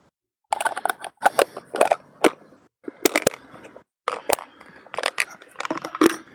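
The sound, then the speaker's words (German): Plastic clatter as a small film canister is put into a large plastic food container: many sharp clicks, knocks and rattles in irregular bursts, with short quiet gaps between them. “Und jetzt tue ich die kleine Filmdose in die große Tupperdose.”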